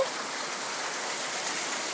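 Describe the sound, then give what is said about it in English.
Heavy rain falls outside in a dense, steady hiss that holds evenly for the whole stretch, with no pauses, drips or voices standing out. “Yeah, it's really raining out here a lot.”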